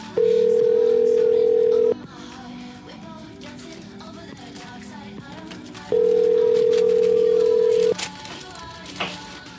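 Telephone ringback tone on a call to a number from Canada: two steady, even tones about two seconds long, separated by a pause of several seconds, over a faint background murmur.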